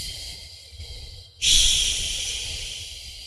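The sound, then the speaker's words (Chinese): A slow, long exhalation through the open mouth during a breathing exercise. The steady, airy hiss begins abruptly midway through, after a quiet stretch, and trails on evenly while gradually softening. “然后张开口，再进行缓慢的呼气，呼的时候越慢越好，长呼”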